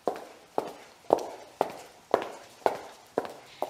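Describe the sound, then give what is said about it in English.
Boots click and clack on a floor in eight steady, evenly spaced footsteps. Each step is a sharp heel strike followed by a short fading tail, with no voices. “she could hear loud clicks and clacks that came from Helen's boots on the floor”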